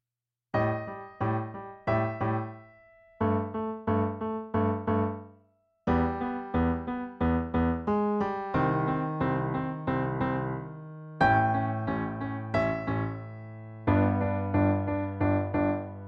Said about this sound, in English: Well, naturally, it sounds better with a full orchestra than just on a piano. But those are the notes that are being played